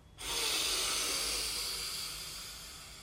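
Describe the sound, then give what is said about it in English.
A slow, deep inhale during a guided relaxation exercise: breathy airflow starts abruptly, holds steady and fairly soft, then eases slightly toward the end, with no talking. “Let's take an inhale together.”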